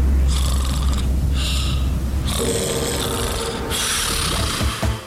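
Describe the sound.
Snoring comes as a few loud, rasping breaths in a steady rhythm, each a long, rough, noisy rumble with short pauses between them.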